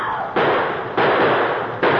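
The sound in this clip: Three sharp gunshots fired at a mountain lion, each a sudden loud crack with a rough, noisy tail, spaced unevenly over two seconds with no voices.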